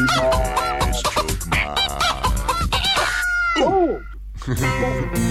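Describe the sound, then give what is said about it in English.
Rooster crowing and clucking: a run of loud, harsh clucks and squawks leads into a drawn-out crow with an arching pitch, then more sharp clucks at the end, with no voices. “Got a rooster. A red rooster, isn't it?”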